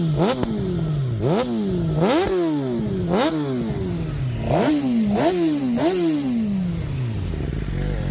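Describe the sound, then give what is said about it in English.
A motorcycle fitted with an aftermarket exhaust pipe and a quick shifter revs hard again and again. Each rev climbs quickly and then drops back, in a loud, steady run of throttle blips with no talking. “I've got an aftermarket pipe, and I've got a quick shifter fitted too. It does sound good too.”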